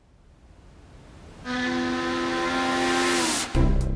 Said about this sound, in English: Welcome aboard our vessel. I'll be your captain. Join me and my trusty ally, the cook, as we set sail